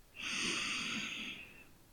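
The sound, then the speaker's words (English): A single slow, deep breath, soft and airy, that swells and fades over about a second and a half with a faint hiss. It is heard alone, with no talking. “Take a deep breath in.”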